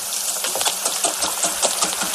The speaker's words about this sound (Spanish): Me estoy ahora mismo, desde la redacción, que hay una pequeña cocina, me estoy haciendo un huevo frito. Mira, qué bien. ¿Escuchas?